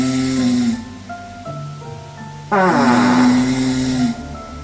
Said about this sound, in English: That sounds like some snoring, but what's that other noise?